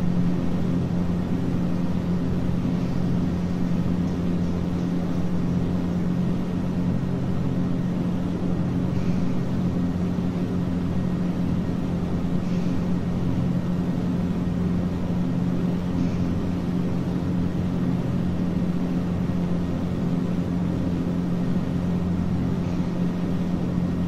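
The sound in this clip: Aircraft engine drone inside a flight simulator video game, the plane flying at around 115 knots; a loud, unbroken, even hum with a steady low tone persists for the whole stretch without change.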